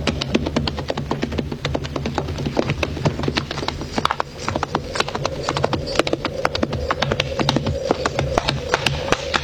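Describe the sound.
Horse hooves clop in a quick, steady rhythm as a woman rides on horseback, with a brief lull near the middle before the hoofbeats pick up again.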